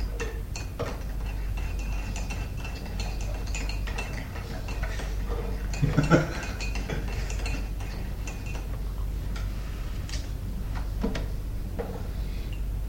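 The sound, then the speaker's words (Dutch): A spoon stirring sugar makes light, irregular metallic clinks and ticks over a low steady hum, with a slightly louder cluster of taps partway through. “nou moet je even roeren, hè, met de lepel.”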